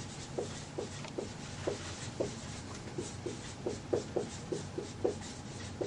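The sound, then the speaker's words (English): A picture is drawn by hand in many faint, short scratchy strokes that come in a steady, uneven rhythm and stay quiet throughout. “Let me draw the picture here.”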